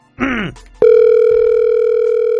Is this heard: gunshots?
no